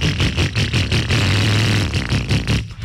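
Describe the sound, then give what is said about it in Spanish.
A motorcycle engine runs loud and rough, with rapid rhythmic chugging pulses, a steadier droning stretch in the middle, and then uneven sputtering again. “Si su moto suena así,”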